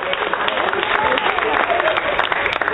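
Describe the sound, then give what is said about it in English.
Audience applause on cue at a comedy show: dense, steady clapping mixed with crowd noise that fills the whole stretch without a break. “Give yourselves a round of applause.”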